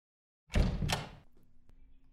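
The door of a boss's office opens as someone comes in: one heavy thump and scrape lasting under a second, then a low settling rumble and a faint click, with no voices.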